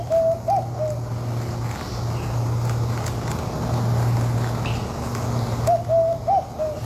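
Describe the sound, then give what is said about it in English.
A bar-shouldered dove coos in two short, soft, warbling bouts, one at the start and one near the end, over a low steady hum. “It's kind of spooky, the sound of that bar-shouldered dove.”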